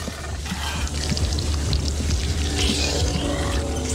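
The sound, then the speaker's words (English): A film sound effect of a liquid-metal robot reforming from a blob into a solid assassin: a dense, continuous gloopy, slurpy, slithering wash of liquid textures and low rumble that stays loud throughout. “That gloopy, slurpy, slithering sound you're hearing now is the character T-1000. He's shifting from a liquid blob into a solid robot assassin.”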